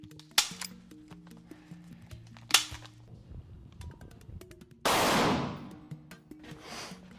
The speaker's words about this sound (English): So today we will be shooting one pig ear and one book.